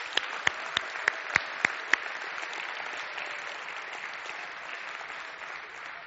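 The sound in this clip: Applause from a church audience welcoming a new member: a steady, dense patter of clapping fills the whole clip, with a few sharper, louder claps standing out near the start.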